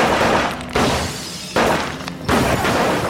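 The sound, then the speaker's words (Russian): Gunfire from a film soundtrack shootout as an ambush breaks out at a pharmacy, with a few heavy, booming bursts, each swelling suddenly and then decaying into a dense, loud roar. “Начинается перестрелка.”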